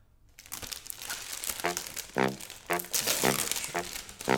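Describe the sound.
Crinkling and tearing of a trading card booster pack's wrapper as it is opened. Several loud, crisp bursts of crackling plastic follow a brief silence at the start.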